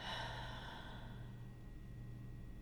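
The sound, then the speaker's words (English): A long, deep exhale during a guided breathing exercise: a steady, airy breath that stays loud across its length and thins out in its upper hiss toward the end, heard alone over a low constant hum. “Hold it and exhale. Another deep breath in. Hold it and exhale.”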